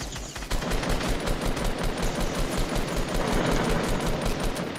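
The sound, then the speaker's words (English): Rapid automatic gunfire in the video game Fortnite: a dense, loud, unbroken stream of shots that starts after a brief quieter moment and keeps hammering to the end. “Oh shoot, I'm getting shot from behind.”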